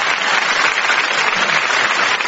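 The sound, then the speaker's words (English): An audience applauds a contestant on a comedy quiz show. The clapping is dense and continuous, stays at an even level throughout and has no voices over it. “Donna Barry, give him a round of applause.”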